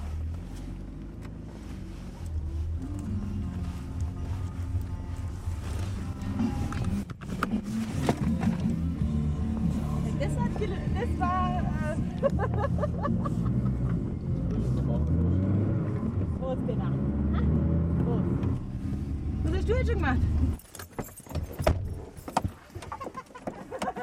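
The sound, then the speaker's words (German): A car engine runs with a steady low rumble beneath people talking, and the rumble drops away near the end. “Auto. Warte mal, ich mach das mal schnell aus.”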